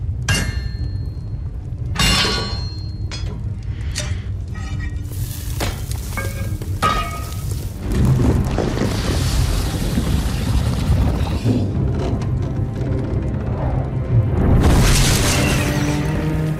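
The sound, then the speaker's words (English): Metal is melted in a cauldron and two swords are forged in a Game of Thrones blacksmith scene, with sharp hissing sizzles and heavy booms that break out at intervals, then give way to a sustained roaring rush. “So, if you don't know what's going on here, there is a cauldron and something's being melted and two new swords are being forged.”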